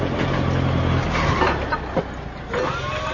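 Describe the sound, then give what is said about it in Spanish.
A forklift drives up with a low, steady engine hum for about the first second, followed by a few scattered knocks and clunks. “llega conduciendo una carretilla elevadora”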